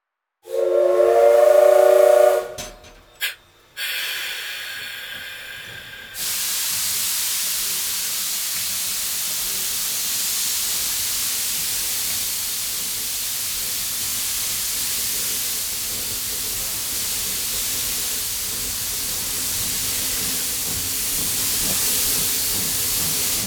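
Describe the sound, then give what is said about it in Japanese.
A steam train's whistle blows one loud, long blast and then a brief extra toot as the train departs, followed by a steady, loud rush of hissing steam that continues to the end. “時刻よし。はい、発射。出発進行。”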